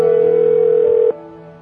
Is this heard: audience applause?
no